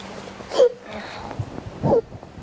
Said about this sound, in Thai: ลูกสะอื้น